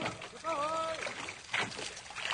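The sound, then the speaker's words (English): Oars dipping and pulling through water as a rowing boat moves up alongside a drifting ship, splashy strokes heard beneath voices. “Shall I put the boat alongside? Yes, let's get to the bottom of this queer thing. A few more strokes there, and we'll board her.”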